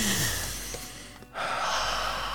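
A deep breath, a long, loud, airy rush of air with a brief break near the middle, with no talking.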